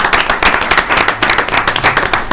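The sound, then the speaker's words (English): Audience applause for volunteer tax-assistance employees: dense, steady clapping from many hands, loud and continuous with rapid overlapping claps throughout. “Could we please applaud them and tell them what they're doing?”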